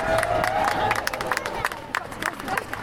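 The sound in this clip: An audience at a Sheffield anti-racism rally applauds and cheers to welcome a speaker. Brisk clapping mixes with a few whoops and crowd voices, and the noise thins slightly toward the end.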